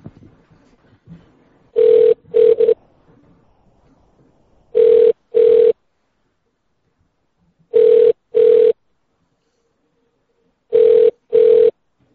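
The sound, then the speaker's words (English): A telephone ring tone plays for a caller on hold, waiting to be transferred to a supercenter's electronics department: four evenly spaced double rings of a steady, buzzy mid-pitched tone, with silence between them. “Whenever Jamal answers the phone, maybe we'll get something done.”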